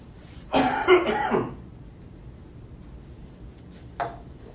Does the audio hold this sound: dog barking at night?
no